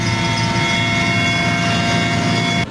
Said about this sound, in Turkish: İzmir'in Çeşme ilçesinde ise çöplük alanda başlayan yangını söndürmek için yangın söndürme uçakları sorti üstüne sorti yaptı.